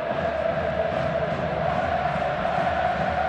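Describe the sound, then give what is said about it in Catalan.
A football stadium crowd at a Barcelona match against Atlético around the 70th minute gives off a continuous, dense roar of cheering that stays steady and fairly loud, without distinct bursts. “Molt bé el camp, ara. Sí, ara el públic s'ha animat.”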